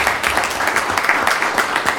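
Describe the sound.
Applause for a Manasquan High School junior honored as Student of the Month: dense, steady clapping from a group that holds an even level for about two seconds.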